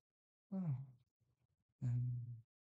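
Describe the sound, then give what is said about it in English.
A man takes a deep breath as he wakes and tries to gather his bearings, heard as two low, voiced, sighing breaths with a short pause between them, alone and fairly quiet. “He tries to gather his bearings. He takes a deep breath.”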